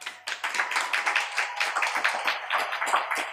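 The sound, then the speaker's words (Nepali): Audience clapping in a rapid, fairly even run of many sharp claps that stays at a steady level with no voices. “यो ठोकेको ताली पनि असत्य भनेर देख्नुपर्छ, नत्र भने मनले फेरि ताली खोजिरहन्छ”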